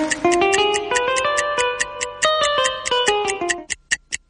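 Steady ticking of a quiz countdown clock that keeps running: fast, regular, crisp ticks over sustained musical tones, then the ticks continue alone, louder and more distinct, at the end.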